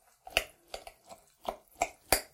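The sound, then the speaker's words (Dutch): A spoon stirs dry and moist ingredients together for a spelt pie, giving a regular series of sharp, brief clacks and scrapes at an even rhythm, with no talking. “ik roer dat er allemaal goed in. Ziet, je hoort dat waarschijnlijk wel. Ik meng dat en dat zal dan dat vocht goed opnemen.”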